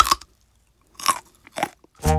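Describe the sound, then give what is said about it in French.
A child bites and crunches a piece of carrot, giving a few crisp, separate crunches spaced apart, each short and clear against silence. “met un bout de carotte dans sa bouche. Il me regarde et il croque dedans.”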